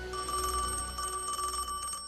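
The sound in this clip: A telephone rings faintly in a bedroom, an electronic warbling tone that repeats in a steady pulsing pattern over quiet background hiss.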